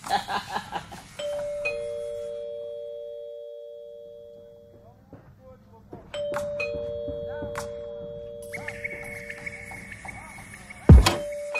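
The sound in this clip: Electronic doorbell chime in two bursts of sustained tones, each held for a few seconds, with a higher tone joining near the end. A sharp loud knock lands just before the close, and faint voices murmur underneath.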